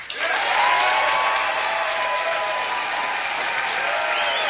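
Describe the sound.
Concert audience applause welcoming a band onto the stage at a music hall, a loud, dense wash of clapping with cheering voices mixed in, sustained at an even level.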